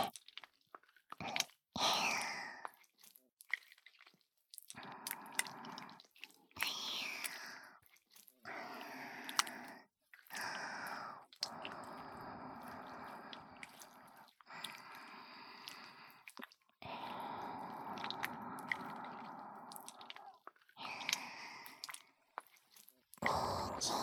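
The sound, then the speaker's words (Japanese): Lotion being stirred makes wet, sticky squishing sounds. They come in many irregular bursts with brief pauses and stay fairly quiet throughout. “ローションをかき混ぜる音、いいわよね”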